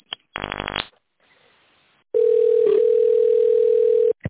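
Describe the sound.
Telephone dial tone while placing a call: a brief burst of harsh buzzing, then a faint hiss, then a loud, steady, mid-pitched tone that holds for about two seconds before cutting off.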